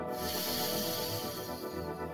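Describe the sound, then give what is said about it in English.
A long, deep breath in during a guided solar plexus chakra meditation, heard as a steady, airy hiss that fills the whole clip with no talk over it. “Deep breath in”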